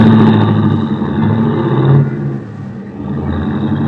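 A taxi cab engine revs as it drives off, a loud, sustained motor roar that eases briefly midway and then holds steady.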